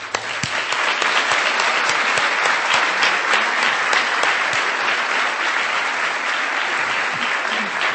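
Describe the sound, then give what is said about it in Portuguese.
A church audience applauding during a bilingual service as people come forward: loud, sustained clapping with many sharp individual claps standing out from a dense, even roar that holds from start to finish. “Give them a hand. Aplaudo enquanto eles vêm.”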